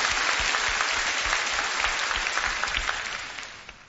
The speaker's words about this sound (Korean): KBS 관현악단 정성조 단장님과 그 단원들 여러분 뜨거운 박수를 한번 환영해 주십시오.